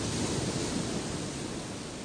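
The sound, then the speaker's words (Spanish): Ocean waves breaking on sand: a continuous, full rushing wash of surf, steady and dense throughout, with no separate crashes standing out. “Y vuelves otra vez al sonido de las olas”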